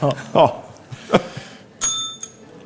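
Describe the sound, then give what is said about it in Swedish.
A quiz bell dings twice in quick succession after some brief talk, giving thin, light metallic pings. “Dålig plinga. Vi tar den igen.”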